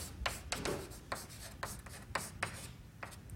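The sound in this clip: Handwriting as a formula for the Hubble parameter is written out during a cosmology lecture, with faint, scratchy strokes coming in short irregular bursts and small taps and no voice over them.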